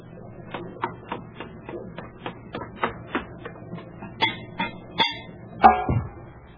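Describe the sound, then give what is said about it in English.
A submarine's conning tower hatch is opened after surfacing, with a steady run of sharp metallic clicks and taps ending in a few louder clanks. “Open the conning tower hatch, Franklin.”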